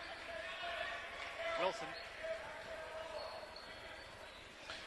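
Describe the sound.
A basketball is dribbled in the backcourt during a game, giving a few scattered bounces beneath steady play-by-play commentary and a low crowd murmur.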